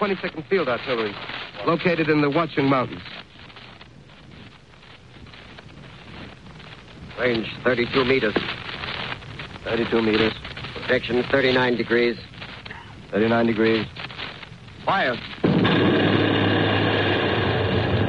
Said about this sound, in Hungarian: Az első lövés célt tévesztett.